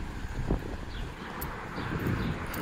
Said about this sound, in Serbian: Vetar je sad u ovom momentu glavni igrač.